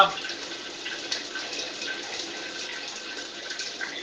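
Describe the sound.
Water from a shower in a latrine runs as a steady, even hiss of spray at moderate level, unbroken throughout.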